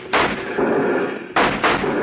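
Gunfire rings out in a western shootout with riders on horseback. Several sharp, loud blasts come in quick succession, each trailing off into a rumbling tail before the next.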